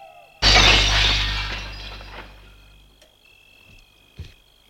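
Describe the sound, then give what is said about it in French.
Window glass shatters under a punch in one sudden, loud crash, followed by a long ringing, tinkling decay as fragments fall. A couple of small clinks follow, and a faint low hum runs throughout. “La vitre s'est brisée. Il est debout. Les débris tombent dans la chambre.”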